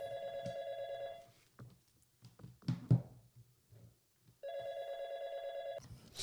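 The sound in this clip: The ringback tone of an outgoing telephone call: two long, steady electronic rings separated by a quiet pause containing a few faint clicks and taps.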